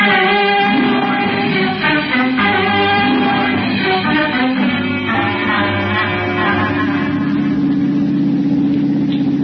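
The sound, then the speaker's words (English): A car engine hums steadily while driving, a low, even drone with rich overtones that holds at one level throughout, with no talk. “When I'm driving anybody as important as the Green Llama, I like to start early. That way I don't have to drive fast and maybe there won't be any accidents.”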